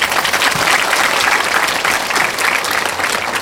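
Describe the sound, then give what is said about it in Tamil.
Loud, dense audience applause at a village gathering held on behalf of the village action committee and women's self-help groups, with steady, continuous clapping from many hands throughout. “அவருக்கும் நம்ம கிராம செயல்வழி குழு சார்பாகவும் மகளிர் குழுக்கள் சார்பாகவும் ஒரு பெரிய பாராட்டு தெரிவிக்கலாமா.”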